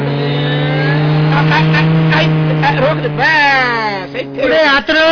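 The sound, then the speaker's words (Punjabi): A car pulling up and stopping at a roadside hotel, its engine a loud, steady drone with people talking over it throughout. “ਉਹ ਲੱਗਦਾ ਉਹ ਕਾਰ ਵਾਲੇ ਪੁਰਜੇ ਤਾਂ ਆਪਣੇ hotel ਦੀ ਆ ਕੇ ਰੁਕਣਗੇ।”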